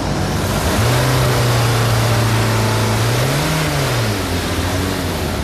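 A car engine revs during an exhaust smoke opacity test at a vehicle inspection. A steady engine hum climbs once in pitch, then drops back, and runs continuously without talk.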